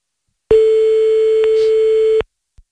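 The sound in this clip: Telephone busy signal after a number is dialed: one loud, steady, mid-pitched electronic tone held for under two seconds, with a click partway through, followed by a faint short click after it stops.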